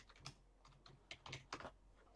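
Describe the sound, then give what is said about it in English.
Faint clicking of a computer keyboard as a name and film title are typed into a search, a few short bursts of keystrokes with no voices. “Type in Kevin Feige, No Way Home.”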